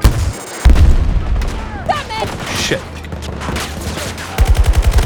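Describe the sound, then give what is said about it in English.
A grenade blast in a military shooter game, set off by the player against himself, booms loudly early on. Later a rapid run of gunshots rattles out, with voices heard in between. “I hit the wrong button and grenaded myself.”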